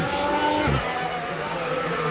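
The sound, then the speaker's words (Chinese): A McLaren Formula 1 car on a Q3 qualifying flying lap at Monaco, its engine a loud, continuous high whine with shifting tones and a brief low rumble early on. “你来看这个皮亚斯特里开始做他的飞驰圈， 所以你看。两辆迈凯伦呢，实际上呢，在 Q3 一开始的时候呢，就先出来，对吧？”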